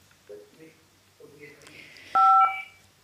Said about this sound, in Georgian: ზარი კიდევ ერთი. გისმენთ?